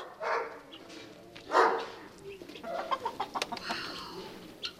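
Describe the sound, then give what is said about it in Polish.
Roosters and hens cluck and squawk in a henhouse, with loud bursts of calls and then many short, choppy clucks that overlap. The calls sound harsh and uneven. “w moim kurniku musi być. Tu są akurat panowie i tak jak się mówi, że koguty teoretycznie nie bytują razem”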